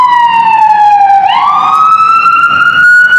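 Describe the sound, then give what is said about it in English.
A loud emergency vehicle siren wails continuously as it passes. The tone dips, then swings back up and holds steady, with road and engine noise underneath. “This is the 10th emergency vehicle. Yeah. This is probably just a transport.”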